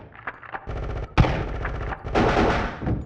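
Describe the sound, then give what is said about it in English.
Gunfire as a squad opens fire on contact during a basement breach: a few sharp shots, then sustained rattling automatic bursts with a heavy, loud crack in the middle. “Contact. Open fire.”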